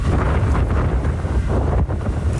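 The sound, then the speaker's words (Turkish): Strong storm wind gusting at about 80 km/h in Tekirdağ, roaring loud and continuous with heavy low rumble as it buffets the microphone, steady throughout with no pauses. “Tekirdağ'da rüzgarın hızı saatte 80 kilometreye çıktı.”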